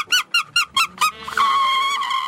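A comb played as a musical instrument on a tango radio programme gives five short, buzzy, reedy notes in an even rhythm, then one longer held tone, loud and alone.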